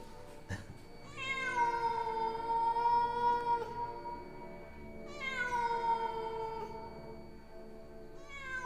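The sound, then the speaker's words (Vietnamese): A cat yowls in long, wavering, eerie cries: two drawn-out howls, each falling slightly at its start, with another just beginning at the end. No voices are heard. “Con mèo gầm gừ một hồi, thỉnh thoảng lại kêu lên những tiếng nghe đến rùng rợn.”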